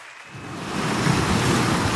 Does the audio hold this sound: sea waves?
yes